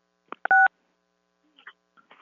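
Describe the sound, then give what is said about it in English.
A telephone keypad tone sounds once, short and clear, dialed to unmute on a public-comment call line, with a few faint clicks around it. “if you can please dial star six to unmute.”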